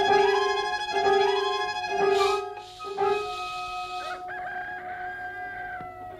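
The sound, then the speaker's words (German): Chickens, feared to be sick, cluck and crow in a loud series of repeated, tonal, strained calls, roughly one per second at first, then a longer drawn-out crow that fades toward the end, with no voices. “Mir gefallen die Hühner nicht”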